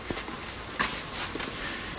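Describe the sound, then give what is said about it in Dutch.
Soft footsteps walk between terraced houses on a drizzly afternoon. A few faint, unevenly spaced steps sound over quiet background noise. “Terwijl we tussen de rijtjeshuizen lopen”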